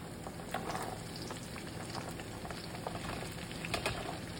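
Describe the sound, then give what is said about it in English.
Bacon and freshly added onions frying in a pan, a steady hiss broken by scattered crackles and pops throughout, with no talking. “So now it's time to add the onions. I'm probably not going to add all of this onion. I'm going to just add whatever shakes out.”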